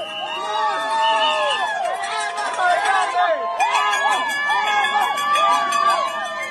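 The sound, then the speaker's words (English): Jubilant supporters celebrate beside a highway in Miramar, Florida, after their candidate wins a presidential election. A dense, loud, steady mass of many voices cheers, shouts and whoops over one another throughout. “And that is the sound of some jubilant Trump supporters celebrating by a highway in Miramar in Florida once it became clear that their candidate would win the presidential election.”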